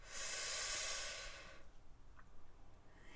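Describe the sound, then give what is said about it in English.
A deep breath drawn in through the nose during a guided breathing exercise: a soft, airy hiss that swells and holds for about a second and a half, then fades into near silence. “One more time. In through the nose.”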